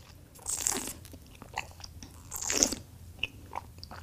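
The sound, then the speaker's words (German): Faint sipping and airy slurping as wine is tasted during a tasting of a 2019 wine. Two longer hissing draws are separated by small clicks and mouth sounds. “Na gut, nehmen wir mal einen Schluck.”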